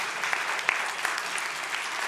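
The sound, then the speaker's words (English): Polite golf-clap applause from an audience at a Christian sermon: soft, even and continuous, with a few sharper claps standing out. “It's like the polite clap, this is the golf clap.”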